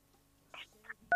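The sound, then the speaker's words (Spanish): Phone keypad buttons being pressed, ending in one short, sharp two-tone beep after a couple of faint softer sounds. “Ay, se te están marcando botones.”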